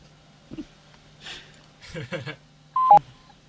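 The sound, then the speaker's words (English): Touch-tone keypad beeps as a phone number is redialed to rejoin a conference call: a couple of brief, clean tones near the end, after some quiet speech and breathing. “But we're going to dial it again because I crapped out on the fucking conference call. So I'm going to call him again and then I'm going to connect to you.”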